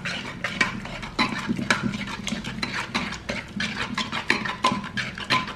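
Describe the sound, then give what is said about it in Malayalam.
Mashing cooked vegetable pieces in a pot with a little water: many quick scraping and clinking strokes of a utensil against the pot bottom, in an uneven, steady rhythm with no talking. “അപ്പം ഇങ്ങനെ ആകുമ്പോഴേ നല്ലതുപോലെ നമുക്ക് ഈ കഷ്ണങ്ങൾ ഉടയ്ക്കാൻ പറ്റും.”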